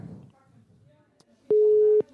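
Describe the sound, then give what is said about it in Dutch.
Telephone busy tone from a call that cannot connect: a single steady mid-pitched beep lasting about half a second, following a quiet stretch with faint low sounds. “Hij is in gesprek.”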